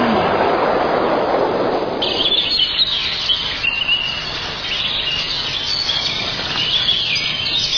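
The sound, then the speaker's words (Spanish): Birds chirp in a dense, high, twittering chorus that rises after the first couple of seconds and continues over a steady rumbling noise. “Pájaros.”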